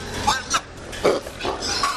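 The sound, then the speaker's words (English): Pigs grunt and oink among thousands of hogs housed on an Illinois hog farm, a few short, rough grunts in an uneven rhythm. “Thousands of hogs are housed here at the Bible Pork Farm in Louisville”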